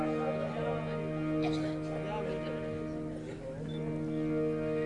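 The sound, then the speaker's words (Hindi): A modern murli, a bamboo flute, holds steady sustained tones with rich, even harmonics throughout, while a voice talks over it. “मुरली बजाई, ये थोड़ी modern मुरली है”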